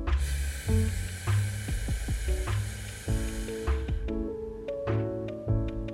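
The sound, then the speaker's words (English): A slow breath is exhaled through gritted teeth during a guided relaxation exercise. It makes a soft, sustained hiss, with steady tones underneath. “Again, a little more gritted teeth. We exhale.”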